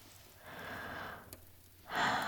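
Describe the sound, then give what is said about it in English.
A person breathing slowly and softly, one long airy breath followed by the start of another, heard alone without any talk. “You hear me breathe, and we can connect like two humans”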